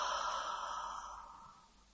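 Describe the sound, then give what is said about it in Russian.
A single long breath, part of a guided exercise of breathing in through the nostrils and out through the mouth: a soft, airy hiss that begins fairly strong and fades steadily away. “Breathe in through the nostrils. Вдох через ноздри. Then hold the breath. Задержите дыхание и выдох через рот.”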